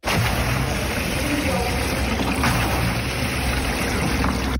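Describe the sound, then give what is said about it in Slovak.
Rushing, sloshing water churns inside the water resistance tank of a rowing machine, a steady, loud, unbroken wash with no distinct strokes. “Znie to veľmi mokro, ale bol to veslovací trenažer, kde tú odporovú časť...”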